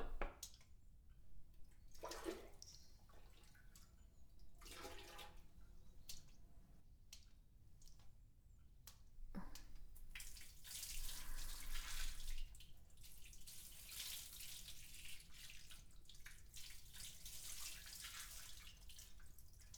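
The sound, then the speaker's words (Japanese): Running water rinses a person off after shampooing, a steady wet hiss with drips and squishy splashes. It is heard alone, with no talk, and grows louder for a few seconds midway. “ではお流しいたします。”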